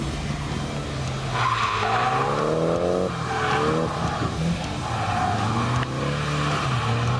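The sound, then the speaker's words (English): Tires squeal as a Nissan S15 spins and skids during drifting practice in Ireland, over a steady engine roar. Several rising and falling squeals overlap across about seven seconds, loud and continuous, with no talk. “I, thankfully, have some time to just purely get sat back into the S15. Alrighty. Ready? Spin. Let's go.”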